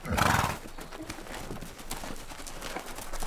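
Foals neighing as their hooves clop: a loud whinny opens, followed by continuous clopping and shuffling of hooves.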